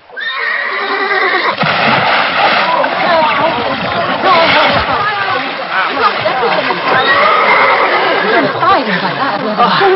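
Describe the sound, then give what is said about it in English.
A horse whinnies loudly and repeatedly after flinging itself into a pond, and water splashes around it. Voices are audible beneath the dense, continuous neighing. “Adam Grizzard's horse flung itself in”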